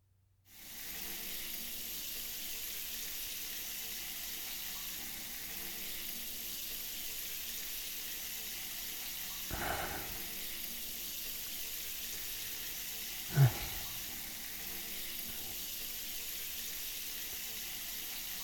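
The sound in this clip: Water pours steadily to rinse someone's back, a soft continuous hiss lasting throughout, broken by two brief splashes partway through.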